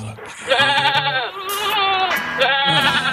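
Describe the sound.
Sheep bleat loudly in a few wavering, quavering calls, one following closely on another.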